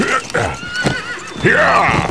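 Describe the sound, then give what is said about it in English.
A big hybrid stallion whinnies loudly with a wavering, shaky neigh while hooves clip-clop beneath it, the whinny swelling stronger toward the end. “Jed Biscuit Haverston flew around in the saddle of his big hybrid stallion like a buoy in a hurricane”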